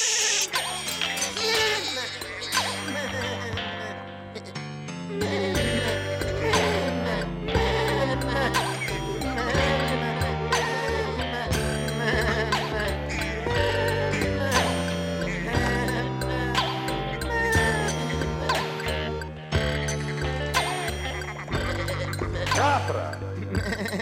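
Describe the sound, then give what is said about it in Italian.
Goats bleat throughout, with many overlapping wavering, nasal cries forming a dense, continuous chorus at a fairly steady loudness. “Aspetti le tue pecore, eccole. Pecore. Oh. Sono capre queste.”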